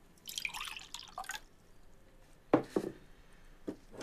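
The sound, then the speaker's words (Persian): Liquid is poured into a cup for someone: a faint, splashy stream that lasts about a second, followed by a few soft drips and clinks. “منم میخورم، برام بریز.”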